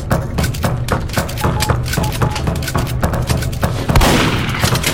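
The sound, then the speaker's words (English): Many rapid, loud shotgun blasts from a video game, fired one after another in a dense, steady barrage, with a heavier burst near the end. “So let's choose my shotgun, I guess.”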